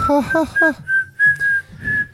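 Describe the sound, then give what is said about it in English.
Whistling from a person who is smiling while trying to whistle, a run of about seven short, breathy notes at a fairly steady high pitch, uneven in length and loudness. “I can't even whistle because I'm smiling so much.”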